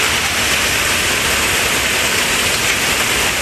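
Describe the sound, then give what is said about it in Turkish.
A violent hailstorm with a heavy downpour and wind in Tarragona, Spain, roars as a dense, unbroken hiss, loud and even throughout with no pauses or voices. “İspanya'nın Tarragona kentinde şiddetli bir dolu fırtınası etkili oldu. Sağanak ve rüzgar birbirini izledi.”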